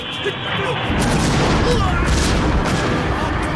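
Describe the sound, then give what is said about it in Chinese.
Enemy artillery cannon fire in a wartime battle, heard as a dense, sustained barrage of rumbling blasts that swells to full loudness after the first second and stays heavy to the end. “不好，鬼子有大炮了，王明昌小心。”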